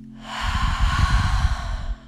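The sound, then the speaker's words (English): A deep breath is exhaled loudly during a meditation exercise as one long, rushing, breathy exhalation lasting about two seconds, swelling and then tapering off, with no talk over it. “Take a deep breath. Inhale as much as you can. Exhale with a big sound.”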